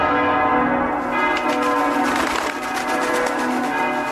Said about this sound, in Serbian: Venčanje je objavljeno zvukom zvona sa svih beogradskih crkava i artiljerijskim plotunom sa Kalemegdana i Dunava.